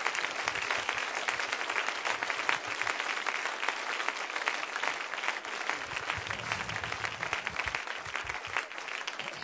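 Applause from a church audience welcoming a couple who will lead the evening service: dense, steady clapping that carries on evenly for the whole stretch.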